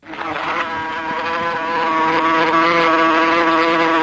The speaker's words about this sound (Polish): Czy komary pełnią jakąś inną funkcję poza irytowaniem człowieka?